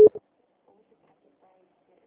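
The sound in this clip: Telephone busy tone after a dropped call: two short beeps of a steady mid-pitched tone, the first longer than the second, then silence.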